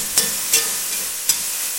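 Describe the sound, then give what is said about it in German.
Onions frying in a pan as they take on colour, giving a steady, even sizzle broken by a few sharp scraping clicks as they are stirred. “Also ein bisschen Farbe sollten die Zwiebeln nehmen.”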